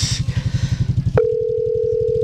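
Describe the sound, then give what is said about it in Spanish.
A telephone ringing out on an unanswered call, heard as one steady, held mid-pitched line tone that starts abruptly partway through, over a low, rhythmic pulsing throb that runs the whole way. “Ahí le está sonando Miriam Maecha, pues creo que otra que no va a contestar.”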